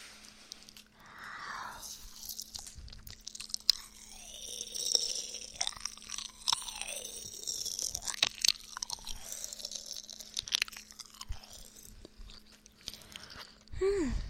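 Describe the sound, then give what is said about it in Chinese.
Chewing of a sweet homemade pastry, with many soft, crunchy bites and chews in an irregular rhythm, fairly faint and heard alone without talk. “来，让我尝一下我可爱的学生做的糕点怎么样？”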